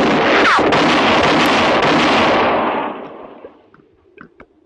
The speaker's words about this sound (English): That enough? Answer me or I'll shoot again.